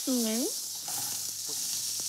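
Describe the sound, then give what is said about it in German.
Iberico pork cheeks sear in a frying pan with a continuous, bright sizzling hiss, broken by a few light scrapes. “Das wird jetzt immer schnell angebraten.”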